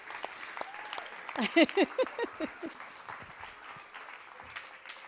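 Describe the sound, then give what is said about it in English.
An audience gives a standing ovation, with sustained clapping that swells midway as a few whoops and cheers rise above it, then eases back to steady applause. “Look at that, you got a standing ovation.”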